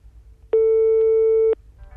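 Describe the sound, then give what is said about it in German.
Telephone line tone heard after dialing an old rotary-dial phone: one steady, mid-pitched buzzy beep lasting about a second, alone over faint background hiss. “Den nimmt man so hoch und da sind die Nummern drin und dann kann man wählen. Wie eine alte Wählscheibe ist dann. Das ist eine 183-stellige Nummer.”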